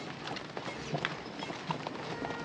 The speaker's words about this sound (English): Dylan mounts his horse.